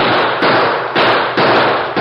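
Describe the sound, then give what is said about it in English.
Gunshots in a radio drama shootout, fired at men below a tree. The shots come as a rapid run of loud, sharp bangs about every half second, with no pauses between them. “The kid's slinging a lot of lead, but he's shooting high.”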